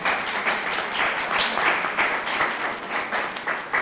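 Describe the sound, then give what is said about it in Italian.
Applause from an audience at a book presentation, thanking the host club: many hands clapping in a lively, uneven patter with small swells of loudness throughout. “farei un applauso anche al circolo per la possibilità”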